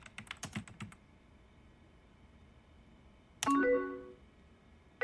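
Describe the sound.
Hasty typing on a computer keyboard, a quick flurry of clicking keystrokes lasting about a second, then quiet before a loud electronic tone sounds alone.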